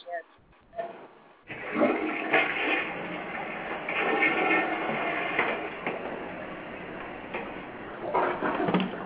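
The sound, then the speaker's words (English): A toilet flush starts after a few faint knocks, surging into a loud rushing, gurgling whoosh of water that keeps running steadily to the end. “I just flushed the toilet”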